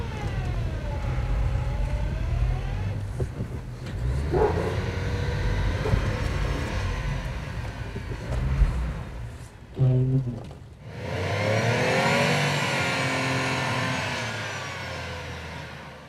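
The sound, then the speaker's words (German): A truck's engine revving hard while rocking back and forth on stuck tires, a sustained droning roar that rises and falls, breaks off briefly near the middle, then swells into another long, loud rev. “Doch kurze Zeit später kommt selbst der gelernte LKW-Fahrer an seine Grenzen. Gegen festgefahrene Reifen hilft nur viel Vor- und Rückwärtsrangieren.”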